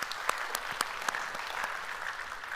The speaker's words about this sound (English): So if you would, put your hands together, welcome them into our services today.